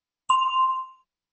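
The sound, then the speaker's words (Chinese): A single bell ding rings out alone, a clear bright tone that sustains briefly and then fades away to silence. “请大家在听到铃声以后回答。”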